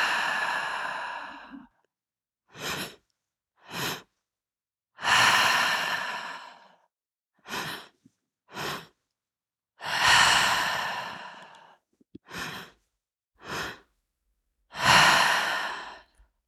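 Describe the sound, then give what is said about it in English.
Breathwork meditation breathing: four long, airy exhales through the mouth, with a pair of quick, sharp inhalations into the belly and chest between each one, in a slow, repeating rhythm. “Into the belly, into the chest, and out through the mouth. Long exhale.”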